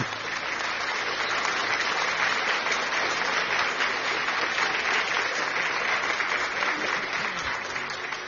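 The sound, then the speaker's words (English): A church audience claps for the husbands at a prophetic teaching gathering, a loud, continuous sheet of handclaps that stays even and unbroken throughout, with no speech over it. “Hey, put your hands together for all husbands. Clap for them. Clap.”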